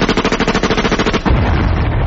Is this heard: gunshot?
yes